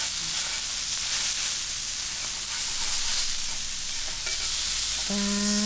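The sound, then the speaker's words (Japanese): A thick block of meat sears on a hot cooking plate, with a dense, steady sizzle and crackle that keeps going without a break. “いい焼き目がついてる、美味しそう。皆さん伝わってますかね、この音、この香りも届けたいぐらいなんですけど、”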